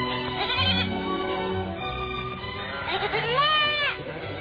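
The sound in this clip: Grazing livestock bleat on a disputed pasture, with a few wavering, nasal calls. The clearest and loudest bleat comes near the end, over a steady background.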